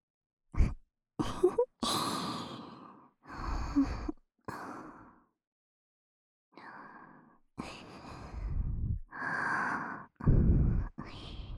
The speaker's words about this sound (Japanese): まあ、どうせあんたのことだから、私の呼吸を聞いて楽しんでるんでしょうけど。